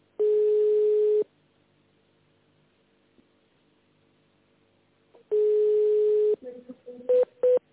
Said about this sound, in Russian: Ну, если не переключается, значит, телефон у него занят.